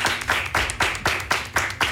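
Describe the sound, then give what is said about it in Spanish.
Clapping from a youth gaita music group in a radio studio, a few hands striking together in a steady, rhythmic beat of sharp claps, loud and alone. “Un aplauso por ustedes mismos, a ver muchachos.”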